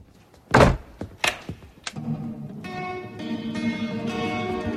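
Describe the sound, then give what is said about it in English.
A door is opened to let someone in: three sharp thuds and knocks sound close together. A steady, tonal music bed then starts and carries on to the end. “Chloe answers her door and Luke enters, signaling for quiet.”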